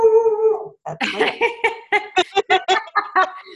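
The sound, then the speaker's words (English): A dog barks and howls: a drawn-out, tonal howl comes first, followed by a rapid series of short, sharp barks in an uneven rhythm. “What do you think of that dog barking?”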